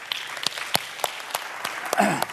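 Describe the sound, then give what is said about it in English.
A church audience applauds with sparse, scattered hand claps, individual sharp smacks spread across the moment at a modest level, with no voices. “you ought to give yourself a round of applause for that.”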